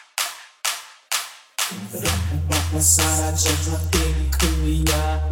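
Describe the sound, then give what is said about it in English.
Rhythmic clapping along with a performer: four evenly spaced, sharp claps ring out alone, then the steady beat continues over music with a deep, heavy bass line. “let me see everybody's hands up in the air and clap, clap, clap, clap, clap, clap, and clap”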